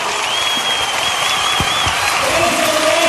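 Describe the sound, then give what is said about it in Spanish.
Audience applause mixed with some cheering, a steady, full-bodied clatter of many hands that stays level from start to finish. “¡El aplauso! ¡Gracias!”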